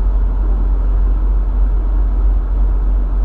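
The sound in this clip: Constant low road rumble and engine drone from a car being driven, steady and fairly loud throughout, with no voices.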